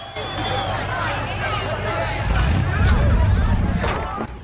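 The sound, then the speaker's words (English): A Chevy Monte Carlo's engine rumbles as the car drives off, a low throaty growl that surges louder midway and stays heavy, with voices carrying over it. “Sean drives off and the footballer throws a baseball. It makes a hole in the back windscreen of the Chevy.”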